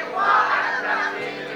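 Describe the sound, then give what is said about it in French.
Congregation acclaiming the word of God at a morning church service, a loud, sustained wash of crowd shouting and cheering that holds steady throughout with no single voice standing out. “Tu peux acclamer la parole de Dieu. Si tu y crois, acclame la parole de Dieu ce matin.”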